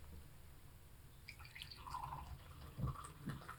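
Tea poured into a cup, heard as a faint, thin trickle with soft drips and small splashes, quiet throughout.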